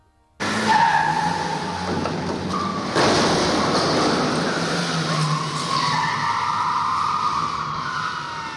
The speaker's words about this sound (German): Die Autos standen genau am Strich, wie Rennläufer. Und sie sind sofort losgedonnert, als die Ampel auf Grün sprang.